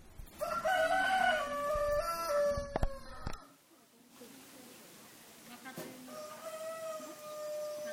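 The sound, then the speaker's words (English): A rooster crows in the fortress at Berat, Albania: a long, loud, harsh crow rings out first, then a quieter stretch follows with softer, fainter calls. “here's the sound of a rooster that we heard in the fortress at Berat.”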